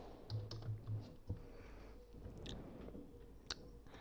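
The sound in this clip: Typing on a computer keyboard: a few faint keystrokes with soft clicks and muffled taps, irregular in rhythm, over a low steady background hum.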